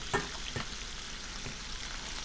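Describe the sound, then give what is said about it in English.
Tomato sauce sizzles in a hot pan as a faint, steady frying hiss, broken by a few soft splatters near the start. “Now, let's put this tomato sauce in.”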